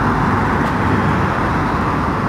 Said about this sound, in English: This is the outdoor trains, the outdoor road traffic.